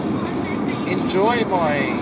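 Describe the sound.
A Waratah train in motion at Burwicha Central gives a steady low rumble, with whining electric tones rising and wavering over it toward the end.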